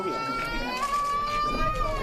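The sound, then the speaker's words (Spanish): A young child crying on the first day at a public nursery school, a steady, wavering high-pitched wail that continues without a break. “Se pone muy nerviosa. Bueno, es la primera vez que viene, pues está llorando un poco.”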